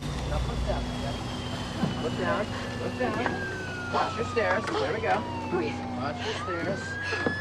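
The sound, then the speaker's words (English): Siren of an ambulance arriving beside a plane whose door and steps have been lowered, wailing steadily with a slowly falling pitch that swings back up near the end, while people talk over it. “The ambulance arrives”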